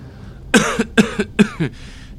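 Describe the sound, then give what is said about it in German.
A man with a lingering cough, blamed on nitre, lets out a short fit of harsh, throaty coughs. Three loud hacks each trail into a smaller rasping follow-up, then quiet breathing, with no talk. “Wie lange haben Sie diesen Husten eigentlich schon?”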